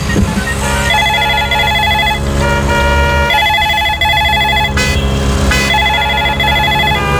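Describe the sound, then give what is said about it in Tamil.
A mobile phone rings in three long, bright bursts of repeating electronic tone. Short gaps separate the bursts, and a low, busy background runs underneath. “எவ்வளவு கூப்பிடுறாங்கடி உன் போன்ல? என்னடி phone நீ பேசுறீங்க?”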